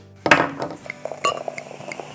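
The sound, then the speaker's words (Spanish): A glass bottle is handled and opened, giving a sharp glassy clink followed by a few lighter clinks and taps, then a soft, uneven rattle that fades out. “Hoy quiero abrir esta botella”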